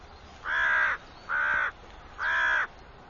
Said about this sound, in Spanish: Este cuervo sabe el motivo desde hace tiempo.